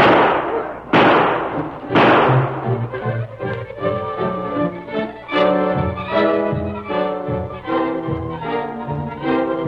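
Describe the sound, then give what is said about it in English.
Three sharp gunshots crack out at about one-second intervals in a Western drama set around Laramie, followed by a stretch of dramatic music. “Hey, somebody's shooting at us.”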